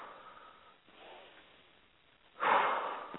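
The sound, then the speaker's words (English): Deep breathing in and out while opening up the breath, slow soft airy breaths followed by one louder, fuller exhale near the end. “Just taking a couple deep breaths, opening up.”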